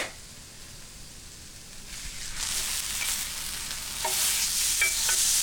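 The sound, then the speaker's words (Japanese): Venison searing in a hot pan: a steady, bright sizzle that starts faint, swells after a couple of seconds and grows louder again near the end, with no talk. “いい焼き目がついてる、美味しそう。皆さん伝わってますかね、この音、この香りも届けたいぐらいなんですけど”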